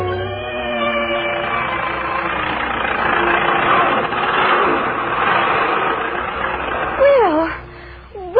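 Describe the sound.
An automobile engine runs steadily, a continuous rumbling drone that swells slightly in the middle, while people talk over it at the start and again near the end.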